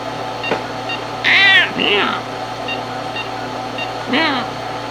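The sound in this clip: A cat meows, a few loud, tonal, drawn-out cries over a low steady hum, with quiet stretches between them.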